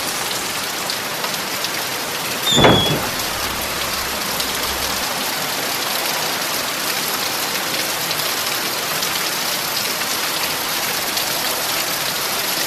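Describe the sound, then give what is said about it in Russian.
Steady rain falling at night, a dense, even hiss of drops that keeps going throughout, broken once near the start by a brief, sharper noise. “На улице ночь, дождь.”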